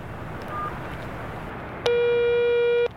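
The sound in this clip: A telephone ringing tone comes through a held handset as a single steady, buzzy tone lasting about a second. It sounds loud and alone over a low background hiss, after one faint brief beep earlier.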